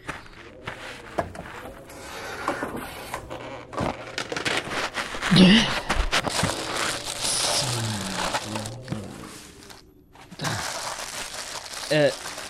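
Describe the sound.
A plastic tarp is rummaged for and crinkled in the back of a car, giving irregular crackling rustles and crumpling bursts, louder in a few stretches, with a voice speaking now and then.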